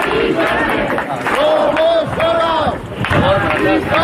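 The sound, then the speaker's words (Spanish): A large crowd chants together during a mass memorial march in Madrid from the Sol encampment to the honoured woman's home, their loud rhythmic voices rising in waves that swell and fade. “Este es el sonido de anoche en Madrid, donde miles de personas la homenajearon en una marcha multitudinaria, desde la acampada de Sol hasta su casa, recorrido en silencio, aunque interrumpido en ocasiones por algunos cánticos.”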